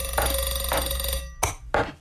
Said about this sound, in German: Und einen Wecker ins Bad gestellt, der klingelt, wenn dieser Punkt erreicht ist.